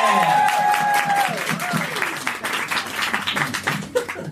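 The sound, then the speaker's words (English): Audience applause welcoming a guest onto a stage: steady, loud clapping that thins toward the end, joined early on by a falling electronic tone, with people talking over it. “Everybody, please put your hands together and welcome to stage Michael from Michael's Corner.”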